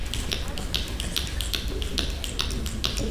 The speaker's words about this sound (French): Les pitos, claquements de doigts qui crépitent,